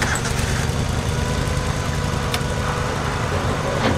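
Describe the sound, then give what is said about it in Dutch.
A wheel loader's diesel engine runs, a loud, steady, low rumble with a broad throbbing texture that continues unbroken throughout. “Nu wat de andere shovel starten.”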